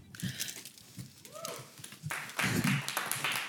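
Audience clapping at a quiz show: a dense burst of claps breaks out partway through and keeps going to the end, after quieter scattered rustles and taps.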